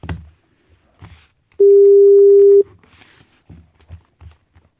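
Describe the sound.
A single steady telephone tone during a call, mid-pitched and even, holding for about one second before cutting off cleanly, with faint voices and brief sounds before and after it.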